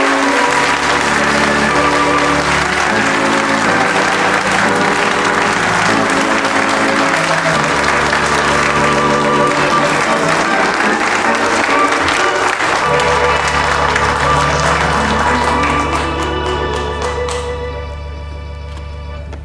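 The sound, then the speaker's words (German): Audience applause at a comic recital of Saxon jokes, a dense, continuous clapping that stays loud and even for most of its length before fading in the last few seconds. “Applaus.”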